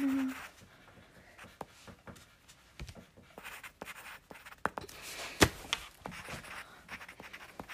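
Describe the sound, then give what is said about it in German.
A pen scribbling quickly on paper during a word game: faint, scratchy strokes in many short, uneven bursts, with a few louder scrapes midway. “Mann, ich kann aber nicht so schnell schreiben.”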